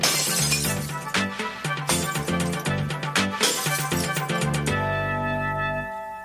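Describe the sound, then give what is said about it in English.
Glass bottles being smashed for recycling: several crashing shatters in quick succession, with bright ringing tones that linger and fade at the end. “would you like to help me recycle some bottles? Sure, Mrs. Goldberg. I'll help you smash a few.”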